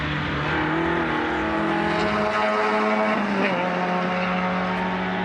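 A front-wheel-drive car driven hard through corners with some understeer, its engine a loud, continuous drone whose pitch shifts as it revs, with tire noise throughout.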